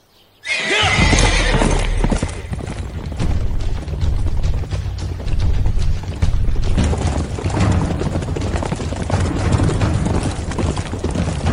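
Horses on a patrol ride clip-clop steadily, with loud neighing and whinnying over the continuous hoof beats throughout.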